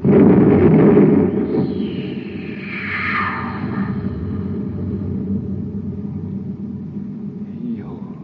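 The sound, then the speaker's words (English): A cosmic torpedo gun aboard a spaceship firing a torpedo: a loud rumbling blast, then a whooshing tone that sweeps downward, settling into a long, steady low rumble. “Put them in and close it. All right, Happy. Fire the torpedo.”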